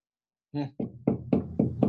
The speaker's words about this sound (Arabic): أنت جالس في الغرفة وتسمع الباب يقول كذا، وش تفهم؟ تفهم إنه في طارق يطرق عليك الباب